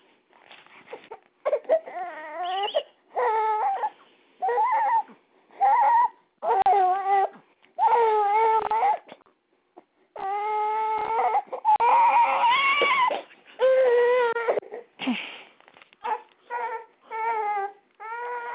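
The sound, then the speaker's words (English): A baby cries over a phone call, many wailing bursts with wavering pitch separated by short pauses, the sound thin and band-limited as if carried down a telephone line. “It's hard to hear with the baby crying.”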